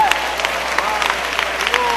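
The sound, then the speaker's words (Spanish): An audience applauding during a church service, dense, steady clapping that holds at an even level throughout, with a voice faintly audible above it. “Démosle un aplauso al Señor antes de tomar su lugar.”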